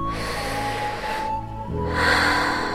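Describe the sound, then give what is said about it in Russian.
A deep breath drawn in during a guided relaxation exercise, a soft, airy rush of breath over steady, gentle background music. “Закройте глаза. Сделайте глубокий вдох.”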